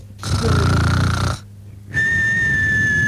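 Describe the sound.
A woman imitates snoring with one long, loud, rasping buzz, then, after a brief pause, a thin, high, steady whistle like a wheezing exhale.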